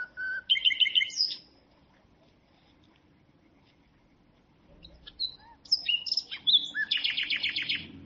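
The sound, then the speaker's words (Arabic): A small sparrow chirps and calls in two bursts: a quick cluster of high, bright chirps, then a pause, then a longer run of rapid tweets and piping calls. “حملته مسحت رأسه بيدها، لكن العصفور الصغير لم يسكت وظل يصيح.”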